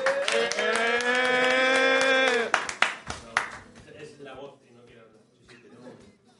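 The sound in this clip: A short burst of applause comes from a small group at a community centre Christmas gathering. A sustained voice opens, then a few seconds of clapping follow and fade quickly.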